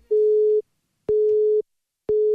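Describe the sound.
A telephone busy signal: three identical steady beeps, each about half a second long, separated by even gaps of silence. They are loud, flat in pitch and heard alone.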